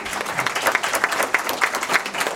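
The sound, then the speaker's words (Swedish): Applause from a gathered audience, many hands clapping steadily with a few regular louder pulses standing out from the ongoing patter. “Det tycker jag är värt en applåd.”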